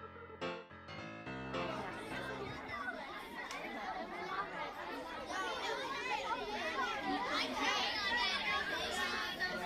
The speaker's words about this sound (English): What you're hearing are third through fifth grade students from a local elementary school waiting in the green room, so to speak, for their turn to perform at the yearly talent show.